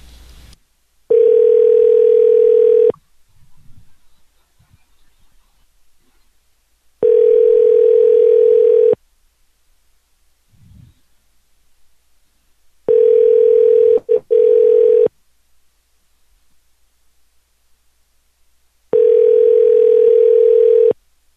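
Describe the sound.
Telephone ringback tone heard while a call is placed and waits to be answered: four steady, loud two-second tones, evenly spaced by pauses of about four seconds, with no voices.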